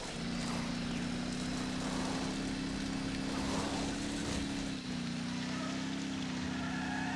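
A vehicle driving in a video game gives off a steady engine drone with a constant low hum. It runs evenly for the whole stretch without clear shifts in speed.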